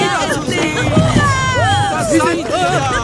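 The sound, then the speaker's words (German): Village crowd on the beach joyfully greeting an arriving rowboat, with many overlapping excited voices and lively shouts that rise and fall in pitch. “Das Ruderboot erreicht nach ruhiger Überfahrt den Dorfstrand und wird von den Bewohnern freudig begrüßt.”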